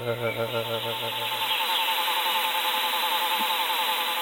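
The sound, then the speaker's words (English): A male psyllid, or jumping louse, calls with a dense, rapidly pulsed buzzing drone; a lower humming tone drops out after about a second and a half while the steady buzz continues at even loudness. “Now, these are little insects called psyllids, jumping lice. So what you will hear here is what is thought to be the male going...”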